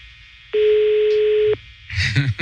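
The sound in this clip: A single telephone ringback tone, a steady hum lasting about a second while waiting for the call to be answered, followed by a brief burst of voice.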